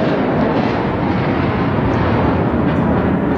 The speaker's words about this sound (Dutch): Dit is het geluid van een F-35 die landt.